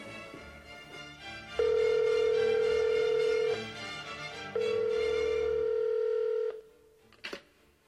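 Telephone call tones sound as a call is placed: two long, steady, mid-pitched tones, each about two seconds, play one after the other over a soft musical background. A brief click follows at the end.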